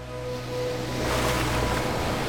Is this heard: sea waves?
yes